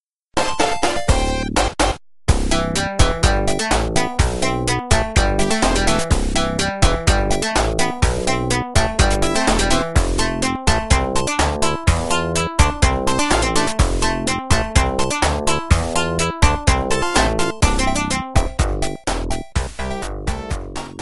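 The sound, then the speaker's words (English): Synthesized music from the Labyrinth Zone level of the Sonic the Hedgehog video game plays loud and steady, a busy melody over a driving bass rhythm. It stops briefly near the start and then runs on without a break. “Jaffe realized that when he said Labyrinth Zone, which sounds like this...”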